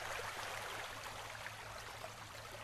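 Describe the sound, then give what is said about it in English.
Gentle ocean waves wash onto a tropical beach shore as a soft, continuous rush of noise with no distinct breaks, fairly quiet and with no voices. “You walk to the water, the ocean waves gently crashing on the shore.”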